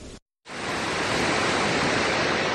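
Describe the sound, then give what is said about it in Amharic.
The Sor waterfall in a forested part of Becho district, Illu Ababor zone, Ethiopia, roars as a dense, steady rush of falling water. It follows a brief silence at the start and stays constant and full to the end. “ይህ በኢሉ አባቦር ዞን በቾ ወረዳ የሚገኘው የሶር ፏፏቴ ነው።”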